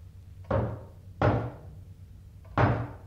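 Knocking on a door: three heavy, hollow thuds ring out alone, the first two fairly close together and the third after a longer pause, each with a short, dull decay.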